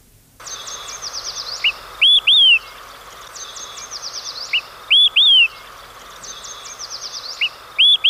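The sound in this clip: Olive-sided flycatcher song, from a tyrant flycatcher in Colorado: a loud, sharp whistled phrase of a few notes sounds three times at steady intervals, over a continuous high trilling from other birds.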